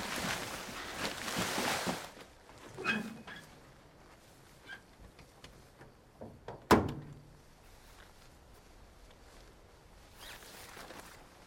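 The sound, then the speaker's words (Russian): Body being loaded into the trunk of a van: rustling and shuffling, a few soft bumps, then one sharp thunk, followed by faint quiet movement. “погружает тело в багажник фургона”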